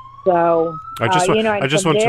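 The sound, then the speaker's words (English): An emergency siren outside a window at Bondi Beach in Sydney, a steady high wailing tone that runs under a voice talking. “I just want to apologize. There's a siren outside my window here on Bondi Beach in Sydney”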